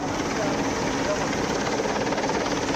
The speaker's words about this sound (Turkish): Helikopterler, uçaklar ve sahil güvenlik botları kazazedelerin bulunduğu bölgeye sevk edildi. Helikopter tarafından denize arama kurtarma kitleri atıldı.